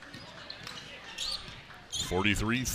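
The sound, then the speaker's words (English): A basketball is dribbled at midcourt during a game. A few faint, irregular bounces sit under a noisy crowd background before a man's voice starts talking loudly near the end. “Dribbling at midcourt. 45 seconds remaining.”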